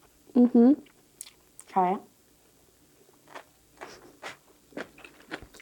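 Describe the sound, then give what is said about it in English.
Crunchy bites of pickled radish are eaten up close in an ASMR-style clip. A voice speaks briefly at the start, then several crisp, separate crunches and chewing sounds follow at irregular intervals. “This is so good. Pickled radish.”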